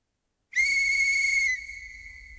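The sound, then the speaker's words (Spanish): A single piercing whistle blast announces a train departing for Songo and La Maya, holding one steady high pitch for about a second before tapering into a softer, fading tail. “Pasajeros a bordo, se va el tren con destino a Songo y La Maya.”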